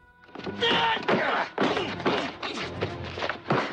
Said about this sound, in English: Yin tries an ankle breaker, but Braddock steps back and kicks Yin in the ribs twice.